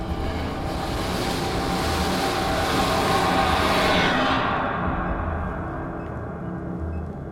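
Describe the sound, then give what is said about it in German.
A train approaches and rushes very close past someone standing in an unlit space, a broad rumbling roar that swells to a peak midway, then loses its hiss and fades as it goes by. “Ein Zug näherte sich und fegte haarscharf an mir vorbei.”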